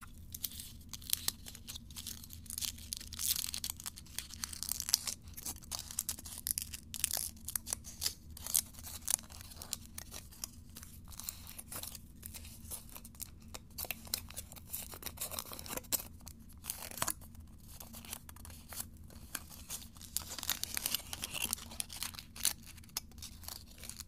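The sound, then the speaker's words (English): Foil crinkling as a Hershey's chocolate kiss is unwrapped by hand: a long stretch of faint, dense rustling, tearing and crackling with many sharp little ticks and no voices. “But, I have here a Hershey's kiss. Let me just unwrap it.”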